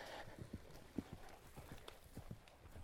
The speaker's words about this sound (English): there's another horse. You will hear this one because it's galloping. Beautiful white horse.